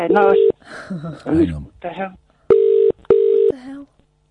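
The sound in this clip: A telephone rings during a live radio show with a steady, buzzy ring. One burst plays at the start, people talk over the gap, and then a quick pair of rings follows near the end.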